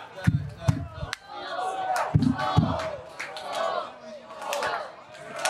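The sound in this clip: A Minnesota Vikings crowd performs the Skol chant, with many voices shouting together in unison. Heavy, rhythmic booms are spaced between the collective calls.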